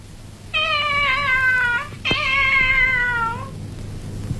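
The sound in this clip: A kitten loose in a classroom meows twice in long, drawn-out, high cries. A sharp click falls between the two meows, and the cat is alone with no talk over it.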